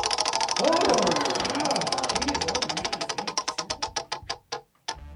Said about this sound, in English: let's bring out the random wheel of games. Ooh. Let's give it a spin.